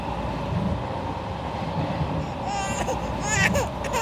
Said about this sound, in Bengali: পাশের কম্পার্টমেন্টে একজন মহিলা বসে আছেন তার কোলে একটি বাচ্চা বাচ্চাটি অনবরত কেঁদে চলেছে